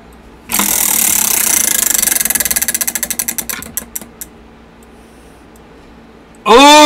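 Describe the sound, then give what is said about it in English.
A prize wheel spins during a music game, its pointer ticking rapidly at first, then slowing into spaced clicks that die away after about four seconds. A voice breaks in loudly at the very end. “Your turn to spin the wheel.”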